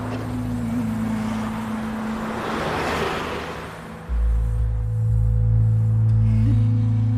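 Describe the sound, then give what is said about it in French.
Cabin noise inside a shared minibus (marshrutka) leaving the airport: a steady low engine hum with road noise that swells around midway. The drone then drops into a deeper, louder rumble that carries on to the end. “À l'aéroport, j'emprunte un minibus collectif. C'est Marshrutka qui quadrille le territoire.”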